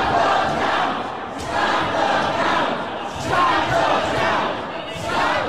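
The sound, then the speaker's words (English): An angry political protest crowd shouts outside a vote counting center in Detroit, a dense, continuous roar of many raised voices that swells and dips repeatedly. “That's the sound of dozens of angry Trump supporters converging on vote counting centers in Detroit.”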